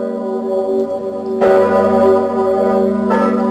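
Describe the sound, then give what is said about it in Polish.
Deep ringing of Kraków's great historic church bell, 500 years old: two strong strokes over a sustained, humming resonant tone. “500 lat to jest piękny jubileusz dla najważniejszego polskiego dzwonu. Dzwonu, który sławi Polskę i wszystkie najważniejsze wydarzenia w życiu kraju i Krakowa.”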